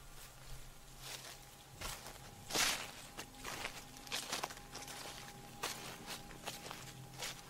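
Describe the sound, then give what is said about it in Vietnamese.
Footsteps walk back and forth on sand and gravel outside a wooden door. Many faint, irregular crunching steps fall at an uneven pace, with one louder scuffing step partway through. “Chợt anh thấy ngoài cánh cửa gỗ tự dưng có tiếng bước chân người bước qua”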